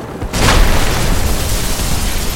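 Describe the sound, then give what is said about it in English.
A stone wall crumbling as brick and stone shards burst outward: one sudden loud blast, then a dense, steady rumble and crackle of falling debris that stays loud to the end. “the rock crumbled under his might. Shards of brick and some unknown stone exploded around them”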